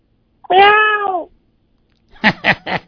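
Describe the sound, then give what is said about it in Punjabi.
A cat lets out one long, drawn-out meow, steady in pitch. After a short silence come a few short, clipped voiced bursts in quick succession. “ਕੀ ਬਿੱਲੀ ਆ ਗਈ ਬਿੱਲੀ”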